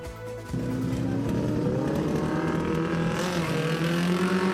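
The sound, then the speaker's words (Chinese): Modified cars and motorcycles race on an airport runway in Cuba on a hot summer day, producing a continuous, loud engine roar that holds steady with overlapping buzzing motor tones. “赛车手们顶着艳阳，在摄氏四十一度的夏日高温来场竞速大赛。现场三十辆改装房车与重机准备上赛道，成为标速之王。”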